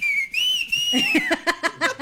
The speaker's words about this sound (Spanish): Unos chiflidos acá, mira, déjate lo enseño